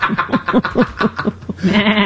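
Sheep bleating in a quick run of short, wavering, nasal calls, then one longer, sustained bleat at the end. The bleats are loud and clear, with no talk over them.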